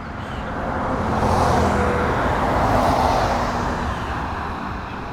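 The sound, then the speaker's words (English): An open-air Jeep drives by with a broad rush of engine and road noise. It builds, stays loud through the middle, then slowly fades, with a low rumble underneath. “Some dope just drove by in his open air Jeep”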